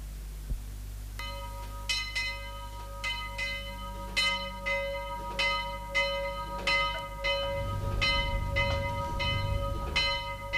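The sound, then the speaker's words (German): A church bell tolls in a radio drama, a steady series of many resonant strikes with long ringing tails, joined by a low rumbling undertone in the later part. “Es läutet”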